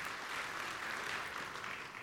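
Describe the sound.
Audience applause welcoming a guest speaker at a West Virginia church gathering led by a pastor: steady, dense clapping from many hands, holding even and moderately loud throughout.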